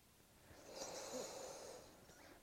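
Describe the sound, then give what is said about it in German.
A single slow inhalation through the nose, drawing air into the lower belly during a breathing exercise: soft and airy, swelling gradually and then fading, with no talking. “Ich lege nun meine Hände auf den Unterbauch und spüre, wie ich Luft in meinen Unterbauch einfülle. Ich atme durch die Nase ein”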